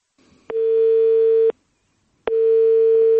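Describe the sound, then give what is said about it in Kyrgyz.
A telephone ringback tone sounds while calling someone, a steady pitched hum in two one-second bursts separated by a pause of silence, fairly loud and alone with no voices. “биз ага телефон чалдык”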